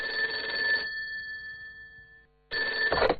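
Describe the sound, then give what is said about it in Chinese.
A telephone rings on a desk in two loud bursts of bright electronic ringing, split by a long pause in which a faint tone lingers and then dies away. “桌上的电话铃声响，是幼儿园园长打来的”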